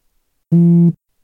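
A new-message notification tone sounds once: a single steady, buzzy low beep lasting under half a second, alone and cutting off sharply.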